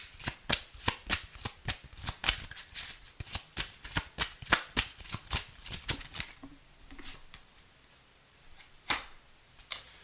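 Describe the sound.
Shuffling a deck of tarot cards produces a long run of quick, crisp riffles and snaps, fairly faint. After about six seconds the sound thins into softer handling with a couple of sharper flicks, and no one speaks.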